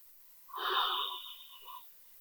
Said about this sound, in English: Take a breath.